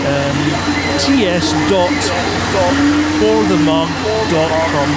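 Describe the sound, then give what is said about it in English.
Hoover vacuum cleaner running, heard over a voice chat, gives a steady, unbroken drone beneath people talking. “Zorlak, can you turn the Hoover off so everybody else can hear what's going on?”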